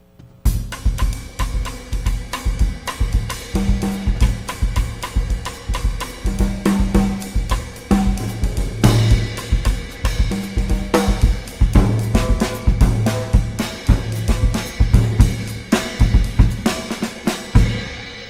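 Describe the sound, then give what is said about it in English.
A bossa nova rhythm played on drums in a jazz context: a smooth, continuous groove of light, closely spaced strokes with recurring low drum tones and bright cymbal-like sizzle, many beats repeating steadily. “the kind of Brazilian rhythm that we know as conga, actually evolved into something that we now know as the bossa nova. And when we use that in jazz, it sounds like this sometimes.”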